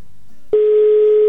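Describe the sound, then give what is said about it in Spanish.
A telephone call tone on an unanswered call: a steady, loud, single-pitched tone cuts in after a quiet low hum and holds evenly to the end. “¿qué crees que no nos contesta Jacqueline, amigo?”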